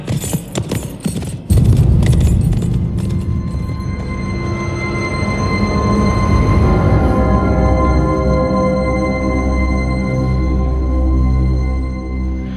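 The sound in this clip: A horse's hooves clip-clop in a quick run of sharp clattering beats at the start, then fade as sustained music swells and carries on alone.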